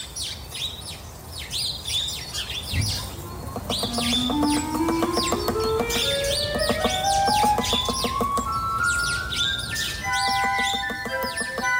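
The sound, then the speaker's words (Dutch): Sparrows chirp busily in a garden where a great spotted woodpecker is also present, bright short calls overlapping throughout above a steady run of tones that climb gradually in pitch. “Dan tellen ze in ieder geval een stuk of wat mussen en 1 dik tevreden grote bonte specht.”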